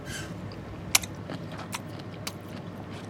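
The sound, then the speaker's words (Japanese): Someone bites and chews kantake, a thick-fleshed, firm mushroom similar to shiitake. Faint crunching and soft chewing clicks are broken by a few sharp snapping bites. “すごい、結構いい歯応えしますねこれね。今まで食べたことない食感ですよこれ。”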